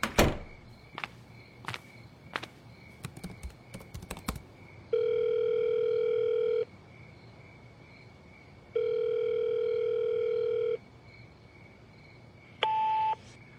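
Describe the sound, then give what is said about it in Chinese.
A phone call is placed through a calling app: a burst of quick taps and clicks, then two long steady ringback tones separated by a pause, and a short final beep. “打开了一个通话软件，拨通了一个电话。”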